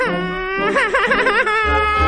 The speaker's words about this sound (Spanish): y como se echó a llorar y a patalear, para hacerle callar, su madre le dijo: Basta ya, garbancito.